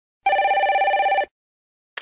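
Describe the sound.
A telephone rings with an incoming call: one warbling electronic trill lasting about a second, then silence, and the brief start of a second ring just as the sound ends.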